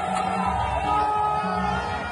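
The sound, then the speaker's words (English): A crowd celebrates the expulsion of the French ambassador in Bamako, Mali, making a sustained din of raised voices. Sung or chanted tones sit over a steady rumble at a fairly even, loud level. “The crowd was celebrating the expulsion of the French ambassador.”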